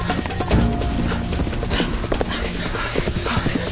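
Hooves of horses pulling a runaway horse-drawn cart clatter in a rapid, dense clip-clop that stays loud and steady for the whole stretch.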